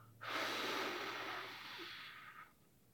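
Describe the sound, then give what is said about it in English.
One long, steady, airy breath lasting about two seconds, part of a belly-breathing exercise of inhaling through the nose and exhaling through the mouth. It is soft and breathy, with no talk. “So you'll breathe in through your nose and fill up your belly with air. And then you breathe out your mouth.”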